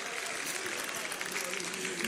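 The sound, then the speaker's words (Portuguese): A church audience claps hands in dense, continuous clapping that holds steady for the whole moment, with voices mixed in. “Bate palmas.”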